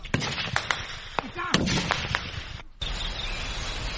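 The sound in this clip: Gunfire from fighting between soldiers and rebels in the forests of the Rwenzori area. Several sharp, irregular shots crack through the first half, then after a brief dip a steady low rumbling noise continues.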